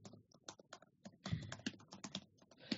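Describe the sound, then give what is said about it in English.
Computer keyboard keys clatter as a search is typed, many quick, uneven keystrokes in short bursts with brief pauses, heard alone without voices. “Let's see. Type in Mrs. Mack, Michelin star.”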